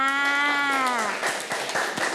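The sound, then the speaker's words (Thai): Children clap for their classmates at a school prize event, a dense patter of many quick claps filling the second half after a brief held voiced tone at the start. “เด็กๆปรบมือให้กับตัวแทนทั้งหมดเลยค่ะ”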